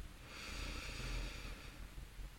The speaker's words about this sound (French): Reprends trois profondes respirations Inspire par le nez en laissant le ventre se gonfler.